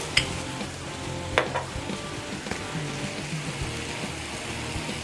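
Potatoes and vegetables with garlic sizzle and fry in a pan, a steady crackling hiss broken by a few louder clicks from stirring. No one speaks.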